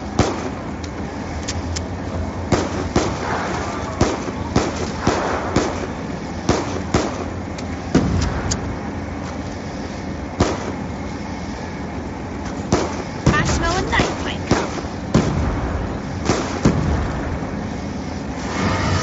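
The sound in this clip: Grenade explosions in a zombie-shooting video game: many sharp, crackling blasts burst at irregular intervals over a steady rumbling bed, some louder than others.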